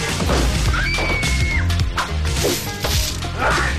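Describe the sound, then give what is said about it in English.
A heavy crash as a man is tripped by a swung chain lasso and falls, set in a dense, busy mix with a few sharp impacts and a brief rising whoosh. “Fu appears in the doorway and swings his chain lasso at Chandler's ankles, felling him.”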